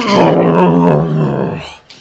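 A she-bear growling in a video game, one loud, deep, rumbling growl sustained for well over a second before it cuts off, leaving a brief faint tail.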